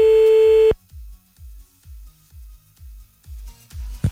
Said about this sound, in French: que se passe-t-il avec la sonnerie?